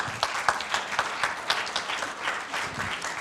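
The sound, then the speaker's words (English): Hands clapping as a church audience welcomes someone to the stage. The applause is brisk and steady, with many overlapping claps and a few sharper claps standing out, continuing throughout. “Would you guys put your hands together and welcome Tyler?”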